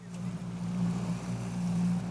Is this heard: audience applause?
no